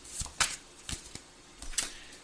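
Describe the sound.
Tarot cards are shuffled and drawn from a deck, making a few faint, quick papery riffles and soft slaps spread across the moment.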